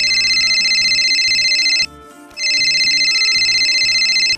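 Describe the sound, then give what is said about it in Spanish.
A telephone rings for an incoming call with a loud, high-pitched electronic trill in two long, steady bursts separated by a brief pause. “una llamada de la señora Betty”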